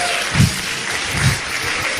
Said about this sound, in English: A round of applause for this, our great nation.